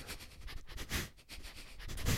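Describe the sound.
A dog sniffs in a quick, uneven series of short nasal inhales. The sniffs are faint and heard alone, with no talk over them.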